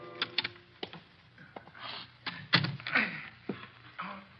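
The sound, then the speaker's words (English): Rattling metallic clicks of a jammed door lock being tried, heard in irregular bursts of sharp clicks and scrapes as the mechanism resists and gives no way. “Blasted lock is jammed.”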